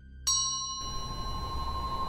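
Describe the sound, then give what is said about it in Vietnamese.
A hand bell rings during a spirit-summoning ritual: one bright metallic strike, then a clear high ringing tone that holds steady to the end over a low, rough noise. “Vừa dứt câu, bàn tay phải của thầy khẽ vung chiếc chuông lắc mấy cái, A Lượng lại xuất hiện ra.”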